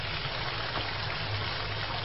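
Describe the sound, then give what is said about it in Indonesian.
Hot water runs from a tap into a bathtub, a continuous rushing, splashing stream. The level stays steady and unbroken from start to end, with no voices. “Baru saja aku menyalakan kran air panas di bathtub”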